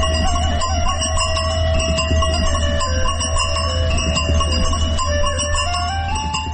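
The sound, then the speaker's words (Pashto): Bells jingle on the necks of a grazing sheep flock in mountain foothills, a steady run of bright, overlapping ringing tones that lasts the whole clip over a constant low rumble. “دا رمې د پسونو د غاړې له ځنګولو څخه خوږه شلنګه خیزي.”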